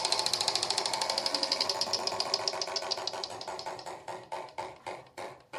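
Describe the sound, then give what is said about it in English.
Clicking of a prize wheel spun during a team quiz game: a rapid string of sharp ticks that gradually slows and spreads out as the wheel loses speed, heard alone without talk. “would you please spin the wheel for Team Marks”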